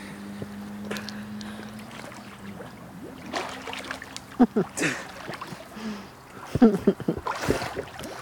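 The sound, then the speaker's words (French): Sea water lapping and sloshing, with wind buffeting the microphone, a low steady hum through the first half, and occasional voices over louder splashes near the end. “La mer, encore la mer.”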